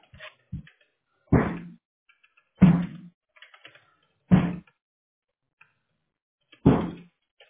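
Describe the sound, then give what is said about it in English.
Keystrokes on a computer keyboard as a name is typed in: a few distinct, fairly loud clacks separated by long pauses, with fainter taps scattered between them. “I just type my name in, right?”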